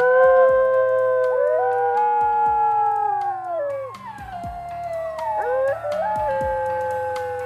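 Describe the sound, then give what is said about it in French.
Several wolves howl together in long, overlapping, gliding tones that rise and fall around one another. The chorus sounds loud and continuous throughout. “au Mangin Palace, tu es chef de la meute, tu es Isengrin dans le roman de Renard, tu es planqué au fond d'une tanière, tu es Mère Grand avec de grandes dents, tu es Canis Lupus”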